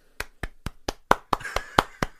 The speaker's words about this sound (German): Applaus, okay.